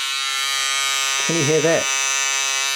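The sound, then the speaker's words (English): Electric buzz cutter hair clippers run throughout with a steady, high-pitched mechanical buzz, while a person speaks briefly over the motor midway. “That is the sound of my buzz cutter.”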